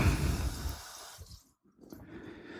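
Running water rinses blanched pods to cool them, a broad steady hiss that drops out briefly partway through and then resumes.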